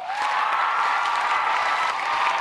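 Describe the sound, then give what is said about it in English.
Rapturous applause from a sold-out audience at a Harvard Books event in the First Parish in Cambridge, Massachusetts, greeting young adult author Angie Thomas; dense, loud clapping holds steady throughout without a break. “Believe me, that rapturous ovation was not for me. It was for 29-year-old young adult author Angie Thomas”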